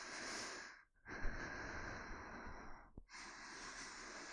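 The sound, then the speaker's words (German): Slow breathing in and out through the nose, long airy hissing breaths broken by two brief pauses, quiet and alone. “Einatmen durch die Nase, ausatmen durch die Nase, mitzählen.”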